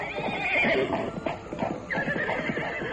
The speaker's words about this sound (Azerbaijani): Axır ki, boz at gəlib, onu başqa faytonların yanına apardı.